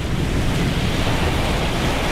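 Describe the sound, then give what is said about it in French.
Sea waves breaking at the foot of cliffs some 30 metres below, a loud, continuous roaring wash of surf with a windy, rushing texture and no voices. “le ressac des vagues.”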